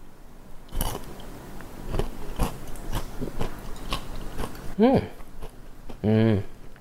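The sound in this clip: A chocolate-coated cluster of toasted pecans, taken from the fridge fully set, is bitten with a crisp crack and then chewed in a run of many small crunches, with a couple of short hummed vocal murmurs near the end.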